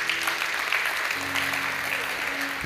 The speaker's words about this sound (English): And right now, we want to put our hands together and welcome you into the family of God.